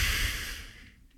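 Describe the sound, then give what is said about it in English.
A deep breath from a man in an audio story: one long breathy exhale, loudest at the start and gradually trailing off into quiet within about a second. “He takes a deep breath and says,”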